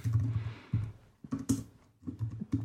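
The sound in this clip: Keys clatter on a computer keyboard as a query is typed into Prolog, arriving in short irregular bursts of clicking with brief pauses between clusters.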